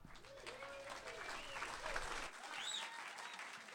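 Audience applause welcoming a performer onto a stage: steady, dense clapping from a crowd that holds at a loud level for the whole stretch, with a few shouts rising above it.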